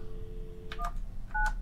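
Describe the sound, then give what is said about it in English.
Touch-tone dialing of a telephone number: two short electronic key beeps in quick succession, fairly faint over a low hum. “You want to get this guy back on the phone? Who? Let's call him.”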